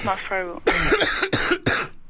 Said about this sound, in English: Can you just do a bit of a cough for us now? Right, I'm going to do a bit of my one now.